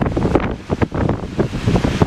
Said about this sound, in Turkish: Kaliforniya kıyılarını dev dalgalar vurdu. Deniz suyu evlerin içine kadar girdi.